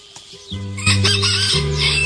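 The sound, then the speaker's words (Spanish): A rooster crows once, a loud, drawn-out harmonic call that rises in strength and holds its strained tone to the end, heard alone with no talk. “Ya cantó el gallo”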